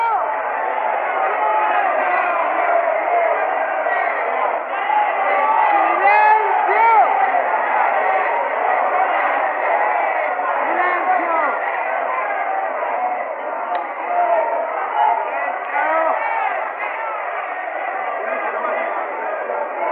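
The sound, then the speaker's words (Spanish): Huge crowd of about 70,000 workers cheering and shouting in an old archival recording of a rally speech, a dense, unbroken din of many voices, thin and tinny in tone throughout. “La ovación de los laburantes, dice, era ensordecedora, no los podían callar.”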